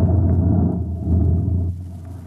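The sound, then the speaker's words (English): A spaceship's bow jets blasting as it lands on the blue desert sands of Mars, a loud, deep, continuous rumble that drops off near the end. “The last blast of the bow jets broke red against the blue desert sands and the ship slid to a halt at the edge of a vast city that reflected the icy glare of the moonlight.”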